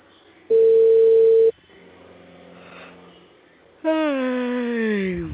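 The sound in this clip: A telephone call tone sounds as a single steady, mid-pitched electronic tone lasting about a second. It is loud and unbroken, then cuts off cleanly.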